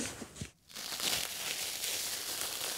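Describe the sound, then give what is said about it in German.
Old carpet, about fifty years old, being torn out of a floor, a dense, continuous crackling rip that starts after a brief quiet gap and keeps going steadily to the end. “Oh, das ist ein richtig alter Teppich. Der ist bestimmt 50 Jahre alt.”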